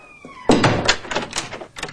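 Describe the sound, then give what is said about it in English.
A door opens into a darkened room with a sudden solid thump, followed by a few softer clunks and rattles that taper off over the next second and a half. “The woman waits till Mrs. Mills has left the darkened room, then opens the door to the children.”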